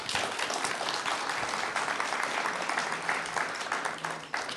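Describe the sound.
Audience applause welcoming two speakers, one of them the Texas State Climatologist, at a Texas A&M University event: dense, steady clapping from many hands that holds for the whole stretch and thins slightly near the end.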